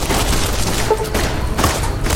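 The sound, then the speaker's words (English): Explosions and gunfire in the video game New Vegas, as targets are blown up. A loud, constant roar of blasts carries a few heavier booming bursts and rapid crackling shots. “It's probably gonna miss, but we're just gonna take a shot. There we go! Yes, blowing them all up.”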